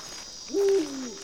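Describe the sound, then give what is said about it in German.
A single deep hoot from an eagle-owl: one low, smooth call that swells quickly, holds steady for a moment, then tails off, heard alone. “Hey, wer ist denn da noch wach? Das ist unser Uhu.”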